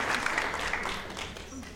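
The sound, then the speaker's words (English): Applause from a group cheering a winning team after a game, a dense patter of clapping that starts fairly full and gradually fades, heard under talk. “But we do have a winning team. Give them a round of applause.”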